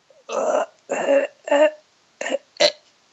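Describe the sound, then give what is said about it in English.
A voice imitates gasping, struggling breaths: several short, strained, throaty bursts with silent gaps between them, loud and rough, alone without other sounds. “it's like that, like, gasping kind of breath where you don't know if you're going to breathe. It's kind of like, it sounds like a struggle”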